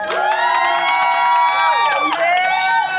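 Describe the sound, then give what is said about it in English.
A small crowd of about ten people cheers and whoops at a live taping, a loud, steady burst of overlapping high voices that lasts the whole three seconds. “We got most people are gone, but we probably got 10 people. I bet they can make some noise for us, too.”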